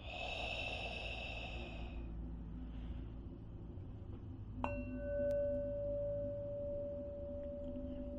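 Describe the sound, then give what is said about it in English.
Slow, soft breathing during a guided meditation, air drawn in through the nose and released through the mouth, faint against a sustained ambient drone; a bell-like tone enters partway through and rings on. “Again, you wanna breathe in your nose and out your mouth.”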